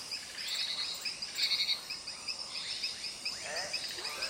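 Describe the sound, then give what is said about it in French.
Dense nocturnal chorus of crickets, frogs and other insects in the Amazon rainforest at night: a continuous shimmer of high trills and chirps overlapping without pause, at steady moderate level with no voices. “Impossible de se sentir seul dans la forêt amazonienne la nuit.”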